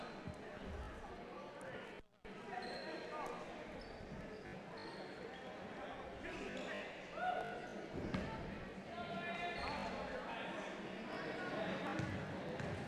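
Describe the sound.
Basketball bounced by a player at the free-throw line during a game. A few sharp dribbles land under the commentators' talk and the steady murmur of a crowd.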